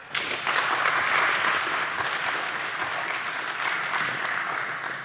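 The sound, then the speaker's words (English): Steady audience applause welcoming a speaker onto the stage at a festival talk, with dense clapping that swells early and then gradually eases. “Give it up for Crystal.”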